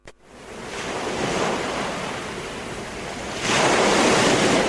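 Ocean surf in a broad, hissing wash that swells, eases slightly, then surges louder and brighter over the final second or so, with no voices.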